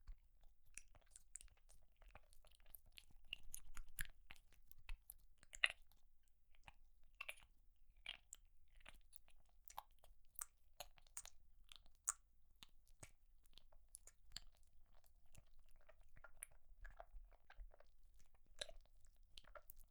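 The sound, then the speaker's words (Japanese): Hard candy being licked and crunched in the mouth: many faint, scattered clicks and small crunches with soft wet mouth sounds, irregular and quiet throughout. “飴舐める音聞きたい？”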